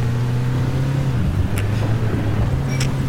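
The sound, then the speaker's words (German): A bus engine, just restarted after trouble starting, runs with a steady low droning rumble. It dips briefly partway through, then carries on evenly, loud and without voices. “Der Bus ist an. Der Bus ist an. Ich fahre.”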